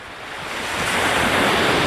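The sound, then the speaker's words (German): Ocean surf on the Brittany coast, a broad hissing roar that swells steadily over two seconds and holds at full strength, with no voices. “Die Wellen von Gibaron in der Bretagne.”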